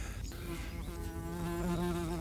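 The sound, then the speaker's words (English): A wasp buzzes close to the microphone, a steady, tonal droning hum that holds through the whole stretch with a slight waver in pitch, over a faint background. “Oh, and there's a wasp come to say hello. There we are, he came to look at the microphone and he's now cleared off.”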